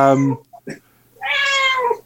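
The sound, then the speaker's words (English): A cat gives one drawn-out, wavering meow, preceded by a shorter voiced sound and a couple of faint clicks. “No, but we have a cat here. Hello, no, cat.”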